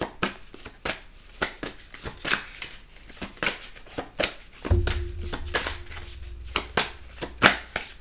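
Tarot cards are shuffled and drawn for a Pisces reading, with many crisp flicks and taps in an uneven rhythm. A low hum joins partway through.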